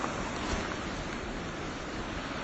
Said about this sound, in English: as you can hear, I'm right down by the river, and there are hills on either side